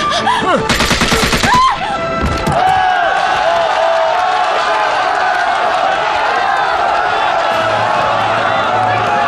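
Gunshots ring out in a hostage standoff: a rapid, loud burst of shots in the opening seconds, followed by sustained noisy commotion.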